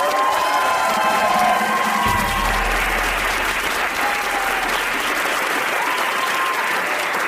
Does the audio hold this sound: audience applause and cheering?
yes